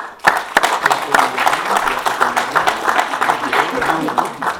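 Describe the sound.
Audience applause welcomes a speaker to the stage. It rises sharply at the start and stays fairly loud and continuous, with a voice talking over the clapping.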